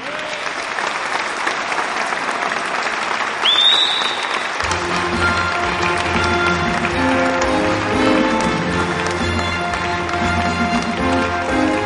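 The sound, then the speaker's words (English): An audience applauds to welcome a performer onto the stage. The clapping is dense and steady throughout, and sustained musical tones enter about midway and carry on beneath it. “So could I ask you all to put your hands together and give a warm welcome to my brother, Mr. Matt Monroe Jr.”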